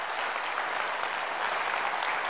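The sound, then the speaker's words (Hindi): An audience applauds loudly, a dense, unbroken wash of clapping that holds steady for the whole clip with no pauses or voices. “अब जोरदार तालियां बजा सकते हैं।”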